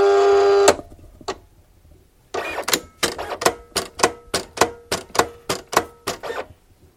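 A machine cutting cement tiles makes a brief steady hum, then a long run of sharp, evenly spaced mechanical clacks that repeat in a regular rhythm.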